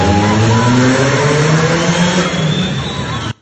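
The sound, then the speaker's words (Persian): Car engines rev and accelerate on a street in Saadat Abad, a loud, steady roar with layered droning tones that climb gradually. The roar holds throughout and then cuts off abruptly at the end. “آره اینم باز گاز و گوزشونه.”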